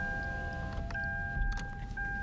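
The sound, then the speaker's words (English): Electric car windows rolling down, a steady thin motor whine that runs throughout, broken by a few short clicks and thumps. “So, as always, in the car, let's roll down the windows”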